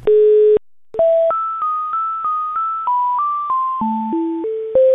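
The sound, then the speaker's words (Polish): A steady dial tone sounds briefly, then a quick, even run of over a dozen phone keypad beeps at shifting pitches as a number is dialed to call an administration office. “Dzwonię do administracji, być może mi się uda coś załatwić od razu”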